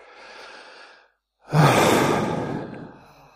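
Long, breathy human exhale: after a softer inhaled breath and a short silence, a loud airy outbreath rushes out, strongest at the start and gradually trailing off over nearly two seconds, with no speech.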